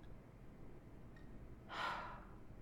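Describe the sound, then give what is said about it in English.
A single short, sharp breath taken as a calming breath, a quiet burst of air lasting under half a second against near silence. “Nice calming breath.”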